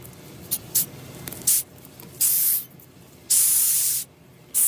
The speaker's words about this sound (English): That is the sound of a 10 centimetre long Madagascar hissing cockroach.